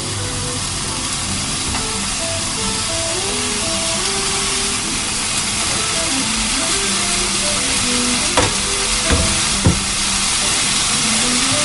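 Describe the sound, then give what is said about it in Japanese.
Thick-cut block bacon frying in a pan for bacon and eggs gives a steady, loud sizzling hiss that runs without a break, with a few sharper crackles near the end. “まずベーコンを焼きます”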